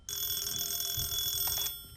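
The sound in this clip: A telephone rings in a single continuous electronic burst, high-pitched and fairly faint. It lasts about a second and a half, then fades out.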